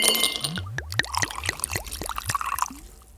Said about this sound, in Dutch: Maar schenk jij ondertussen even wat in? Ik heb ook wel dorst gekregen.